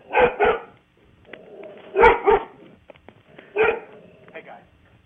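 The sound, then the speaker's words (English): A dog barks in three short bursts: two quick double barks and then a single bark, each loud and sharp. Muffled voices talk quietly between the bursts. “Don't worry about the dog barking.”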